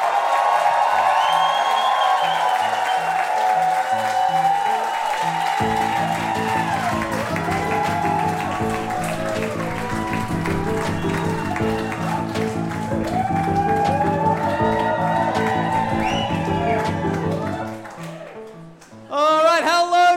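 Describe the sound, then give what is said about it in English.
A live festival audience at a beachfront restaurant claps and cheers. A steady thumping music beat joins partway through and runs under the crowd noise, then the sound dips briefly near the end. “So for the final time, this Kosamui International Podcast Festival, please give it up for Do Go On!”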